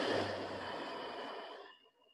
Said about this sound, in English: Breathe in, breathe out,